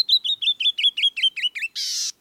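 Canyon wren song from a bird of rocky cliffs and outcrops: a cascade of about ten clear, sweet whistled notes that gently descend in pitch, ending in a longer, louder buzzy rasp.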